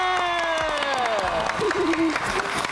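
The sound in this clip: Audience applause at an award ceremony: a steady wash of clapping mixed with crowd cheering, with a voice sounding over it.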